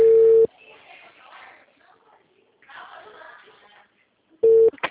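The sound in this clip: Telephone line tone after a dropped call: a steady, mid-pitched electronic beep opens and closes the stretch, two short bursts at the same pitch separated by several seconds of faint, muffled low-level sound.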